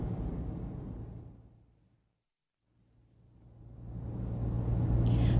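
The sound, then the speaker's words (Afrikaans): Road rumble of a car driving while it follows a smuggling truck near the Gordons Bay turn-off: a steady low roar fades to silence midway, then swells back and ends at its loudest. “Ek ry aan tot by die volgende moontlike afdraaiplek. Dis die pad links af na Corns Bay.”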